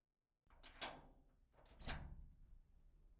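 Door being opened at a home as a guest arrives, two short, quiet clattering bursts, the second slightly stronger and trailing off, with no voices.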